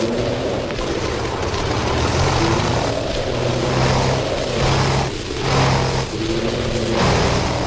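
Propeller airplane engine droning during a flight over the Sahara desert, its propeller failing; a loud, dense, continuous roar with slight surges and dips and no voices.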